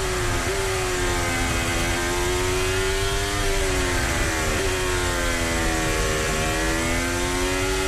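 A Formula 1 race car engine revving hard in a loud, continuous, buzzing whine whose pitch wavers up and down with brief dips as the revs shift.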